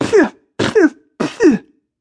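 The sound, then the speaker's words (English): A woman coughing three times, each a short, harsh, double-pulsed burst from the throat. The coughs are loud, evenly spaced and heard alone. “She coughs some more, putting her fist to her mouth, her other hand flat to her sternum.”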